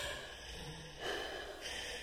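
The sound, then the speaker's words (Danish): A deep, heavy breath drawn down through the windpipe, one faint airy swell lasting roughly half a second over a quiet, hissy background. “Bare læg den lige så stille på, og så trækker du vejret sådan tungt ned, sådan”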